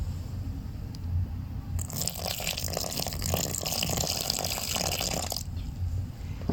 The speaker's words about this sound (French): Et on mélange les trois ingrédients ensemble. Quand ça commence à faire de la pâte, on malaxe bien.